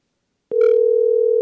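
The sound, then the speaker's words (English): A sharp click and then a steady telephone tone follow the dialing of a call-in number. The tone holds at an even, fairly loud level to the end. “It's ringing.”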